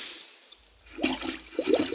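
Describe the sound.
Gurgling, bubbling water as a man dives and submerges under the sea. A faint hiss comes first, then a churning surge of water that swells in short bursts toward the end.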